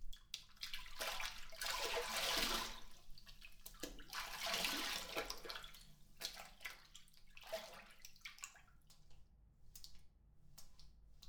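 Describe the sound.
Water poured over someone's back while bathing, arriving as a few soft splashing, trickling waves that swell and fade unevenly, quiet overall with no voices.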